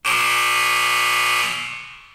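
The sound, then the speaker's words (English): A buzzer marking the end of time sounds as a single loud, steady, harsh electronic tone lasting about a second and a half, then quickly fades out. “there's the buzzer. That's it. I went over as well.”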